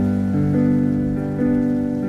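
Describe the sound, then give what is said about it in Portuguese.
Rain falls on a roof as a steady, continuous patter beneath sustained, humming musical tones. “Escutando os barulhos da chuva sobre o telhado.”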